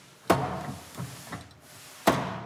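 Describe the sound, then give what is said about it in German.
Blows struck on a safe to knock its spring-loaded lock pin aside: two sharp, loud knocks bracket a couple of softer thuds, each hit decaying briefly. “Und durch das Draufhauen schlagen wir den Pin zur Seite. Und wenn man in der richtigen Sekunde dreht, können wir den Tresor einfach aufschließen.”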